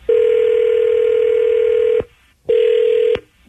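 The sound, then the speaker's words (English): A telephone ringback tone plays as a call is placed: a steady, buzzy mid-pitched tone holds for about two seconds, breaks off, then returns as a shorter second burst. “We'll dial him up, bud.”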